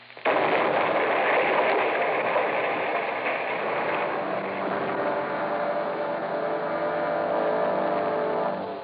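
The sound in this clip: A thrown bottle of nitroglycerin explodes and wrecks a cottage: a loud blast that starts abruptly and rumbles on as a sustained roar for several seconds, slowly thinning out.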